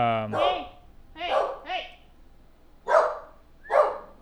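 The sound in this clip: A dog barks frantically, loud sharp barks coming in irregular bursts with short gaps between them.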